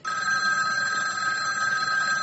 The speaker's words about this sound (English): There's the phone.